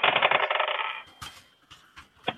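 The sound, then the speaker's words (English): Dice rolled for a tabletop role-playing game: about a second of bright, continuous rattling, then a few separate sharp clicks as the dice settle, with no talking. “So roll 2 dice separately for my nightmare dice?”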